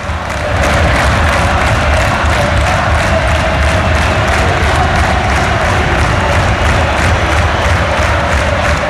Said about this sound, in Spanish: Al público de Riazor le da igual, escuchadlo, escuchad. Esto es ahora mismo Riazor.